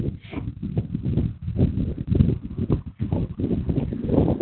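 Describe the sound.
Hoofbeats of horses riding make a continuous, rapid clatter of dull, low thuds in an uneven galloping rhythm, at a steady loudness throughout, with no voices.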